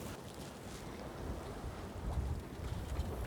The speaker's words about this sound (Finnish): Ei sille vaan voi mitään, että tuo vanha Genua niin lepattaa melkein koko ajan. Jos ei sitä kiristä ihan yli.